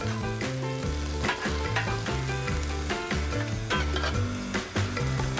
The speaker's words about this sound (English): So we're gonna let these cook for a little bit. The fish has just got basically a little bit of salt and pepper, and that's about the size of it. Doesn't take long for this stuff to cook.